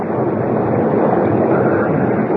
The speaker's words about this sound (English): Well, it's crazy to stay out in a storm like this.